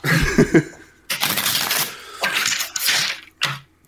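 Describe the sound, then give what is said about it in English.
Tarot cards are shuffled and pulled for a reading: a few short, crisp riffling bursts of papery clatter separated by brief pauses, the last one quick and sharp. “I can just pull. I'll pull three cards and take a look at what the energy is around you right now.”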